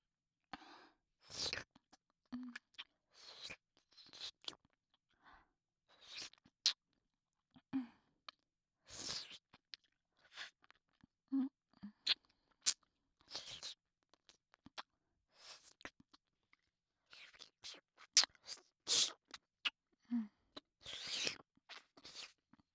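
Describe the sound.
Close-up wet mouth sounds of someone licking grape-flavored candy right by the ear: many soft smacks, slurps and sticky clicks in irregular bursts, with no talking.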